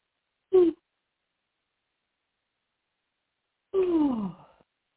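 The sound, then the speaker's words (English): Deep breaths drawn during a guided forgiveness meditation: a short voiced intake, then a longer sighing exhale about three seconds later whose pitch falls, both soft and alone with no talk. “So let's plug in, connect to the energy of forgiveness. Big breath.”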